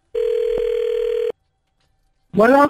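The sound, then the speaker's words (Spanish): A telephone tone as a number is called, a steady, low, single-pitch beep lasting about a second, then silence before a voice speaks. “Ahí le estamos marcando, mi vida, aquí al número que nos diste.”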